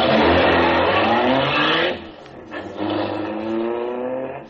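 A big car, an uncommon model, accelerates from a green light with a loud, roaring engine drone that dips briefly partway through, then surges and pulls strongly again.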